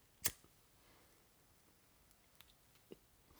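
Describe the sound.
A lighter being flicked to light up: one sharp, loud click near the start, then a few faint ticks in otherwise near silence.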